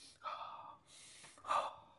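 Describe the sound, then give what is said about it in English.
Mouth breathing, a few slow, airy inhales and exhales following one another, soft and breathy, with no talk. “Oh, sorry, from mouth. Okay, I'm breathing”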